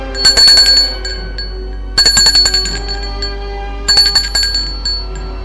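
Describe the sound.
Doorbell ringing at an apartment: three bursts of bright, rapid metallic ringing about two seconds apart, each one loud, then fading into a short quiet pause.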